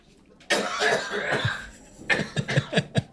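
Harsh coughing after someone inhales a sip of whiskey: a long rough cough with a strained breath, then a quick run of several short, sharp coughs.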